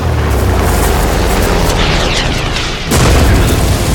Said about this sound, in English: Preparing for airstrike. Target acquired. Missile fired.